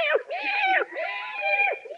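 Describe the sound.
A cat meows in a few drawn-out, wavering calls that run in quick succession, loud and alone with no talk over them.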